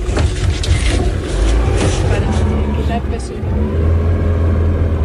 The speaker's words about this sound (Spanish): Navegamos por el embalse, nos vamos, nos montamos en un barco para revisar los arroyos.